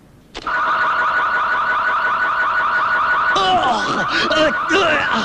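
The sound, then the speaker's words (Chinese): A car alarm bursts on suddenly and loudly, first as a steady, rapidly pulsing electronic tone, then switching to a busier warbling, chirping pattern that keeps sounding to the end. “这种车子的报警信号是很灵敏的。”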